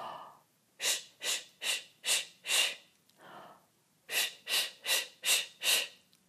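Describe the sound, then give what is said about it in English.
Sharp, rhythmic breath bursts during a singing breath-control exercise: five quick pulses, a softer breath, then five more, each short and forceful with no voice. “Now inhale and make the imaginary book dance like this.”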